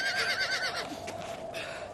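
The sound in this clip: A horse with a double saddle neighs on a freezing trek while people hold onto its tail, a high, wavering whinny that is strongest early on, then trails off over a steady background hiss, with no voices.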